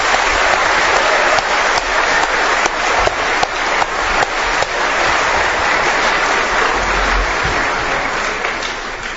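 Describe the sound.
Applause from the audience at a debate: a dense, steady patter of many hands clapping at a strong level that eases off slightly toward the end.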